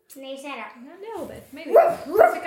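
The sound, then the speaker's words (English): A person imitates a deer's bark. Some speech-like voicing comes first, then two loud, gruff, dog-like vocal barks close together near the end. “Do you know they make a funny noise, deers? They sound like barking dogs. Kind of. Do they sound like this? Boo! Boo!”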